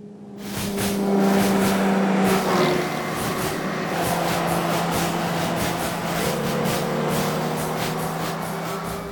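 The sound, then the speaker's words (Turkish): The engine of a 70-year-old jeep starts and runs on a dirt off-road track, a rough, steady rumble that holds for several seconds with a humming tone near the start. “Deneme sürüşü yapabilir miyim? Tabii ki. Atla da çalıştıralım.”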